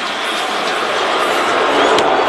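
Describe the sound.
Baseball stadium crowd at a home run derby roaring after a very high fly ball to left, a loud, continuous wall of voices that swells slightly toward the end.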